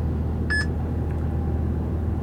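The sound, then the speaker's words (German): Brief electronic beep from a parking app on a phone: a short, high, bright chirp rising out of a steady low rumble, with a fainter tiny blip a moment later. “So, das war das Piepsen von meiner Parkplatz-App. Die möchte gerne eine Eingabe von mir haben, ob der Parkplatz belegt ist oder nicht.”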